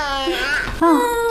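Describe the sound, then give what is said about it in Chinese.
A baby crying in two short, harmonic wails; the second is louder and more strained than the first. “不哭了，不哭了。”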